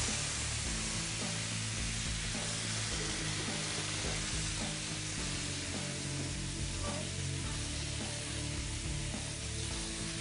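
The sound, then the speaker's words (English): Chicken stock and heavy cream cook in a pan, giving a steady, even sizzle with soft bubbling that holds without pause. “a little more chicken stock. All and some heavy cream.”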